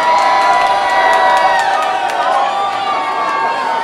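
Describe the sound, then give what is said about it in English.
Crowd cheering, whooping and shouting for a competition contestant at a Halloween all-dayer event, a loud continuous burst of noise throughout. “So make some noise for the left-hand side over here.”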